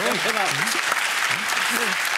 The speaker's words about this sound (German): Guck mal, der Applaus spricht für sich.